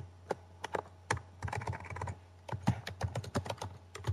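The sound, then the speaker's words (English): Keys clatter on a computer keyboard as a search is typed, starting with a few scattered, separate strokes and then speeding into denser, irregular bursts of clicks over a low steady hum. “Oh, no. I just type in Moving Mars. That would work out, won't it?”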